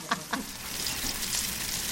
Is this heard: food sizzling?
yes

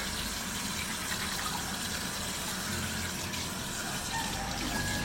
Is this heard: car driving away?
no

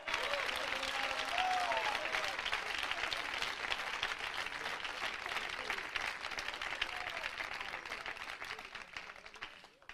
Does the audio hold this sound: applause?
yes

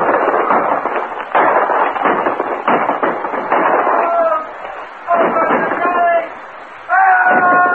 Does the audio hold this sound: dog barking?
no

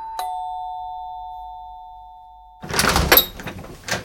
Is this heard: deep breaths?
no

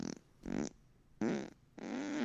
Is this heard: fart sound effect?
yes

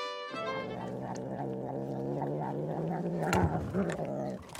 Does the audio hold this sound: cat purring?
yes

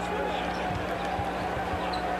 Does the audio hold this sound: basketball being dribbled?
yes

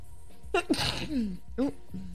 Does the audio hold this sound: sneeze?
yes

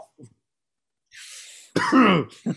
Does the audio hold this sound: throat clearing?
yes

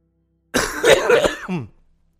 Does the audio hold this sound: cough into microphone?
yes

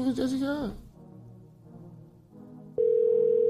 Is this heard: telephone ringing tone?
yes

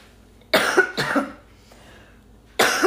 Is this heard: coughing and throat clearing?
yes

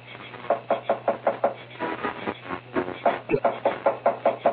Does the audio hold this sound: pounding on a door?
yes

